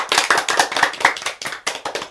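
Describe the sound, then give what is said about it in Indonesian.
Sharp hand claps from a teacher and young children after singing a song in an early-childhood lesson, a quick rhythmic series of many loud, crisp claps with brief gaps between clusters. “Tepuk tangan untuk kita semua.”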